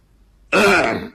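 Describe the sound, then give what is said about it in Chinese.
A single throat clearing voiced by a storyteller acting out a cough in a spoken tale: one harsh, rasping burst of about half a second that follows a quiet start and fades out. “咳嗽一声”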